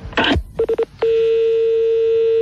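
A telephone number being dialed with touch-tone keys: one beep, then three quick beeps in a row, followed by a steady tone that holds to the end.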